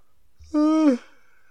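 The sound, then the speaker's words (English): A single human yawn, one drawn-out voiced breath of under half a second that begins with a low gasp and carries a strong, steady tonal core. No talk is heard around it. “yawns are contagious.”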